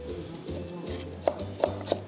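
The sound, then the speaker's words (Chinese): A knife chops pickled chili peppers. Three sharp, fairly faint chops land on the board in irregular succession over a steady low background hum. “这个泡椒呢，我们就直接切碎它就可以了。”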